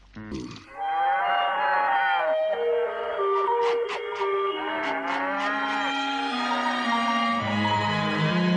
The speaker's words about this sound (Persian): خیالتون راحت باشه، نگاه کنین گله رسید آقای تیمو. ها اشتباه نکنم یه کمی زودتر برگشتن.